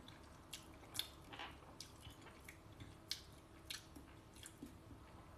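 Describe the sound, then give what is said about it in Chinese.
Wet lip-smacking and slurping from someone eating noodles: many soft, irregular moist smacks and squishes, faint throughout. “能不能不要出声恰饭？哎，我就出声，我就吧唧嘴，嗯，我不仅吧唧嘴，我吃面我还要狠狠的嗦。”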